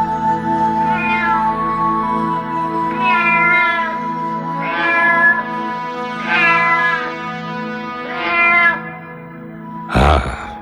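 A black female cat meows five times, each a drawn-out, wavering call at a steady pace over a constant musical drone. A brief harsh burst of sound comes at the end.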